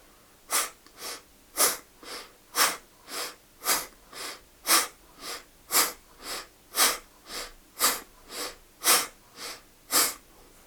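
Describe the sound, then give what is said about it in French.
Sharp exhalations push through the right nostril with the left closed during alternate nostril breathing. Many breathy puffs repeat alone in a steady, even rhythm of about two per second. “Inspirez par les deux. Fermez à gauche, chassez à droite. Trouvez bien votre rythme.”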